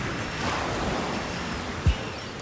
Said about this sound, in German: Draußen regnete es in dünnen Fäden. Die Wellen schlugen auf den Strand und schäumten über die Bojen, das Geröll, den Sand mit dem Kot und den Abfällen.